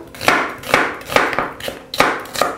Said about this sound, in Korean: 양파도 채를 썰어 주시면 돼요